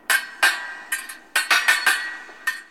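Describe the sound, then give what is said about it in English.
Fencing swords clash in a sword-fighting bout, making a series of sharp, bright metallic clinks at an irregular rhythm, some strikes landing in quick pairs. “So, what's that sound? Fencing! Fencing is a sword fighting sport.”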